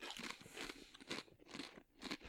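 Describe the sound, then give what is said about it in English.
Biting and crunching a salt and vinegar tortilla chip: several faint, crisp crunches that repeat in a steady chewing rhythm. “You've seen one tortilla chip. You've seen them all. That's what the shape is. Let's have a little taste.”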